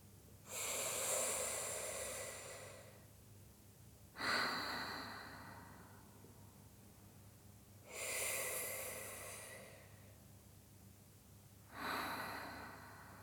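Slow, deep breathing: four long, airy breaths at evenly spaced intervals, each swelling and then fading over a few seconds. No voices are present.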